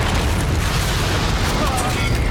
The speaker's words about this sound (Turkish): Ateş! Roketler yolda.